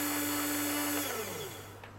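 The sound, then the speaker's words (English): A precision drill whines steadily as it lowers onto a metal sample while drilling holes for strain readings. A motor hum runs underneath, and a tone slides downward partway through as the whole sound gradually softens. “The drill is now in contact with the surface of the sample, and we're ready to drill the first increment and take the first set of strain readings.”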